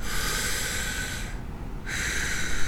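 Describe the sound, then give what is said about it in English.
A long, slow inhale demonstrated as a calming breath in place of smoking, heard as a steady airy hiss that breaks off briefly partway through before continuing at an even level. “Long inhale. Long inhales.”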